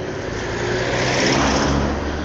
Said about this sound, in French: je sors du parking